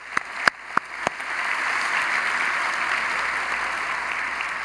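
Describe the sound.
An audience at a simulcast church campus applauds, starting with a few sharp, separate claps that quickly swell into sustained, even clapping from many hands.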